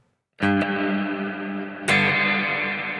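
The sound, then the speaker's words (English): An electric guitar through a Neunaber Wet ambient reverb pedal with the mix turned up and a long pre-delay: two strummed chords, each blooming into a dense, sustained wash that rings on without a gap. “It's the wet is the pedal that really put them on the map, I think. Okay. I'm not super sure, but it is one of the first like really, really huge ambient reverbs. Yeah, let's hear it. Oh, there's wet.”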